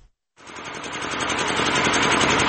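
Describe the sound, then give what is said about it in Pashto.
An old diesel electricity generator runs in a bazaar, kicking in abruptly after a brief silence and settling into a continuous, buzzing engine chug that grows slightly louder as it goes. “دا د صبری ولسوالۍ اړوند یعقوبیو بازار کې د برښنا یو پخوانی جنراتور دی چې د لوړ غږ، تیلو لوړ مصرف او تریخ لوګي په پرتله د برښنا تولید په نشت حساب دی.”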